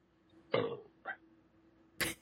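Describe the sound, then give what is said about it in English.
Three short, rough burp-like sounds, faint and alone over a low steady hum, the first the longest and the last the sharpest. “Aw, I wish I could burp right back at you.”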